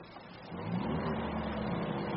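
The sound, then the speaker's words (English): A car drives along country lanes with a steady, low engine rumble that swells slightly near the start and then holds an even hum. “Driving west again. I keep discovering these lovely country lanes.”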